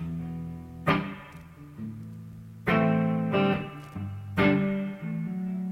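Electric guitar chords ring through a guitar amp's spring reverb, several struck chords each trailing off in a lingering metallic wash, with no talking.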